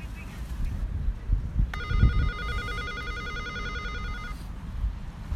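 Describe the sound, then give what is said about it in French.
Apartment intercom buzzer rings from outside the building as a steady, buzzy electronic tone lasting about two and a half seconds over constant background noise. “On, est en bas de chez vous, est-ce qu'on sonne à l'interphone”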